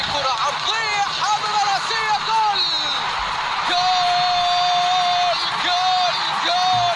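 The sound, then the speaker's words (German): Voices shout long, drawn-out calls of "goal" after a football goal in an away World Cup qualifier win, sustained tones held over a dense, steady roar of crowd noise. “Die rufen auch Goal. Die rufen Goal, Goal, Goal, genau.”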